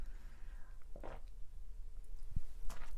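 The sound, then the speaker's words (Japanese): Quiet sipping of drip coffee from a cup: two soft, brief slurping sounds stand out against a faint, near-silent background, with no talk. “ちょっと一回コーヒー飲みますね。”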